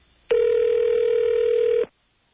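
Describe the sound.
A telephone tone sounds as a call is placed: a single loud, steady electronic tone of about one and a half seconds that starts and stops abruptly, then silence.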